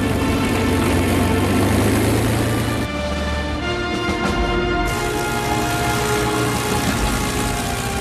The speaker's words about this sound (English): The planes taxi out towards the airstrip.